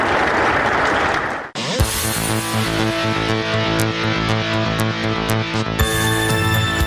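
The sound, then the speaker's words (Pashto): Applause for sports displays by youths and young children forms a dense burst of clapping for about a second and a half. It cuts off abruptly, and music with sustained tones follows. “ځوانانو او تنکیو ماشومانو د ورزش په برخه کې خپل نمایشات هم وړاندې کړل چې په چکچکو بدرګه کېدل”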